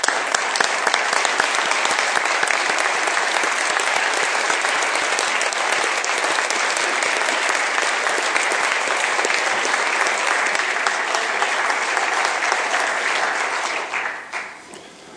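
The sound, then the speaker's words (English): Audience applause for a former Speaker of the House and former mayor at a South Dakota gathering. Dense, steady clapping holds for about fourteen seconds, then quickly fades away at the end. “Can we all please give former Speaker Rausch a hand?”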